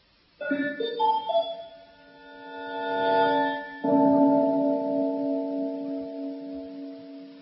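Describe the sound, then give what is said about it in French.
An arpeggiated chord in an electroacoustic composition, its notes entering one after another and ringing together. A single gong-like stroke follows, its composed timbre sustaining and prolonging the harmony as it slowly fades. “un accord arpégé initial est suivi d'une sorte de coup de gong inanalysable à l'oreille, mais dont on entend bien qu'il prolonge l'accord précédent”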